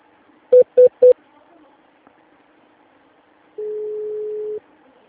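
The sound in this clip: Telephone dialing tones transfer a call to an extension: three short, evenly spaced keypad beeps in quick succession, followed after a pause by a single longer steady tone, all over a quiet line.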